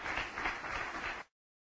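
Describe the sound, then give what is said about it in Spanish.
An audience applauding during a church sermon, a faint, steady crackle of many hands clapping that runs for about a second and a quarter and then cuts off abruptly into silence. “Denle un aplauso a Jesucristo, que Él se lo merece.”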